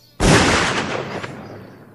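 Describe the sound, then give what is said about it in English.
A 12-gauge shotgun fires at a rock in a single loud, sharp blast whose rumbling tail slowly fades over the next two seconds, with no talking. “This here 12-gauge shotgun, this usually takes care of the problem, depending on exactly how hard the rock is.”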